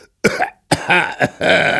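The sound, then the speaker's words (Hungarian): A traveller in a boat coughs and sneezes in four hoarse, voiced bursts, loud and closely spaced with short gaps between them. “Csak hamar a csónakban köhögött, prüsszögött a híres utas.”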